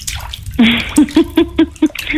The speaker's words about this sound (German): Und ich habe ja Wasser. Ja, heiss. Ich bin jetzt in der Badwanne.